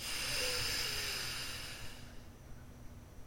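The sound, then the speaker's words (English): A long nasal exhale out of the left nostril during alternate nostril breathing: a steady, airy hiss that is strong at first and fades away after about two seconds, leaving near quiet. “Inhale up the right. Close off the right side. Exhale out the left.”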